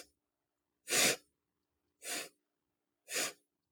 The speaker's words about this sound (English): You're going to hang on to some of that tension and then you're going to inhale.